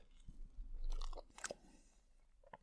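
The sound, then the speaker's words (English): Someone chews mashed potatoes mixed with dillisk seaweed and butter. The moist mouth sounds are faint, with a few sharper clicks of the tongue and lips. “on this occasion I've mixed in some seaweed, which is dillisk, and some butter. Now, I've tasted dillisk before, so I'm kind of hopeful that I'll like this one. So I'm going to give it a bash here.”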